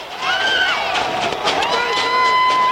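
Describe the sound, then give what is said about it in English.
A peaceful protest crowd shouting against debate invitees: loud, continuous overlapping shouts and cheers, with a thin high whistle-like tone toward the end. “and there is all this crowd, peaceful crowd, shouting against these people, these ones who are ashamed of democracy”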